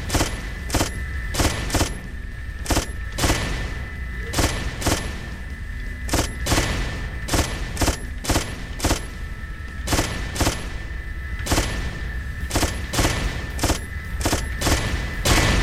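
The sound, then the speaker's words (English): Machine-gun fire in a video game, where the gun slows the more it shoots, sounds as many sharp, evenly spaced bursts over a steady noisy background throughout. “So, problem with this game, there are rockets, but the more you shoot, the slower your machine gun will become.”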